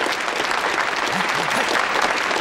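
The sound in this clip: Audience applause welcoming a speaker to the podium at a meeting: a dense, steady wash of clapping that holds at an even loudness throughout.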